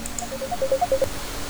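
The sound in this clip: Telephone keypad beeps as a phone is dialed to call back a dropped caller on a radio call-in program: a quick, quiet run of short, even tones in a steady rhythm over faint background hiss.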